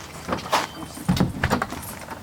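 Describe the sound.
A door is shut in a home while a dog is nearby. A few soft knocks and rattles lead to a firmer thud near the middle, followed by some lighter clicks, all fairly quiet.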